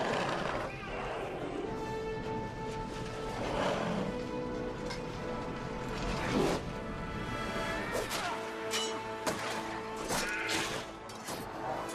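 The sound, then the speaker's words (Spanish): Sword fight against orcs in a forest clearing from a film soundtrack: a dense mix of clashing blows, crashes and whooshes over sustained orchestral music. “Lentamente avanza hacia ellos, empuña su espada con ambas manos y lucha contra los que corren hacia él.”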